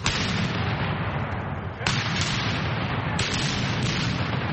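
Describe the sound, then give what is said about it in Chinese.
Historical cannons, 17th-century and American Revolutionary War era pieces, firing at an annual military reenactment at a Virginia museum: three loud blasts, each trailing into a long, heavy rumbling roar that carries on without a gap. “17世纪的火炮， 开火！ 还有美国独立战争时期的火炮， 开火！”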